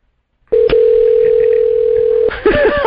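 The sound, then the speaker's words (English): Telephone dial tone heard while a call is being dialed: a short click, then a steady, unbroken hum held for about two seconds before it gives way to a jumble of other sounds. “So you're going to call and he's going to get the Founding Father alert. All right, I'm dialing.”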